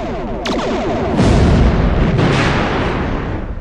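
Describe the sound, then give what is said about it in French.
A torpedo hit and explosion in a simulated space battle: a sharp burst swells into a loud, deep, rumbling blast that rolls on for several seconds with crackling debris-like texture. “refaites un tir de torpille.”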